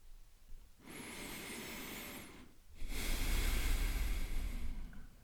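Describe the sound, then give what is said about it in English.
A deep breath is drawn and released, heard as two long, breathy hissing phases separated by a short pause, with the second phase louder and fuller. “But first, let's take a deep breath.”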